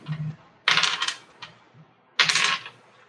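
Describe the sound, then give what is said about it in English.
Dice rolled during a tabletop role-playing game clatter in two distinct bursts of sharp rattling clicks, with faint taps between them. “That's a lot of dice rolls”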